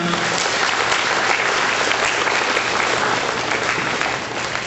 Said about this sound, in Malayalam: കൈയടിച്ച് കർത്താവിന് നന്ദി പറയുക